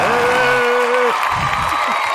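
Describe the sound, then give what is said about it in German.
An audience bursts into applause and cheering, opening with a long, sustained whooping voice, then continuing as a steady wash of clapping and crowd voices. “Da mal einen großen Applaus für unsere Frauen auf diesem Planeten.”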